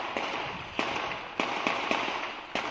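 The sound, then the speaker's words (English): Several sharp gunshot pops from a handgun fired by a man stepping out of a vehicle on a street, irregularly spaced over a steady background hiss. “I see a male exit the vehicle, arm raised, shooting position. I hear the pop, pop, pop.”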